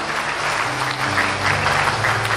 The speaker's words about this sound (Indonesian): Tepuk tangan untuk para 9 crown yang lain Bapak Ibu.